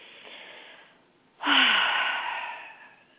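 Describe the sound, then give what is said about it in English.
A deep breath: a faint, soft breath fades out, and after a short pause a loud, airy inhalation bursts in and trails off slowly like a long sigh. “we'll just take a deep breath”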